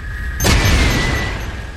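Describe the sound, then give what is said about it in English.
A rocket fired from a weapon in a video game: one sharp burst, then a sustained roaring hiss that slowly tapers, with a faint steady tone running underneath. “Now, the rockets, you can fire at things and they will take them out.”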